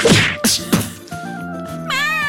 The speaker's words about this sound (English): punch her in the face